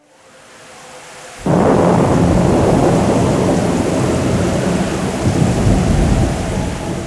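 A thunderstorm with rain on a stormy night: a low rumble builds faintly, then a sudden loud crack of thunder breaks into heavy, roaring rain. The rain stays dense and steady to the end.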